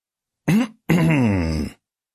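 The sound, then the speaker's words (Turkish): A voice imitates throat clearing for Don Quixote in a narrated reading: a short voiced rasp, a brief pause, then a longer drawn-out groaning clear, both loud and alone. “Boğazını temizleyen Don Kişot okumaya başladı.”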